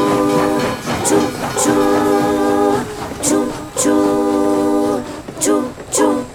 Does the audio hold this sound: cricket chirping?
no